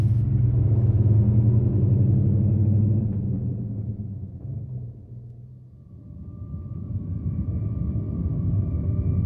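A car drives along a road into town with a steady low engine rumble. The rumble eases briefly midway, then swells again, and a faint thin tone comes in toward the end.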